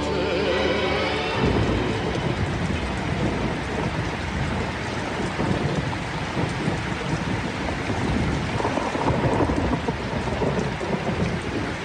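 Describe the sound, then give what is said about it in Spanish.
Heavy rain pours steadily through a thunderstorm, a dense loud hiss of falling water with deep rumbling thunder rolling beneath it without a break. “He desatado de repente la tormenta y en la lluvia una cortina tendida en la inmensidad.”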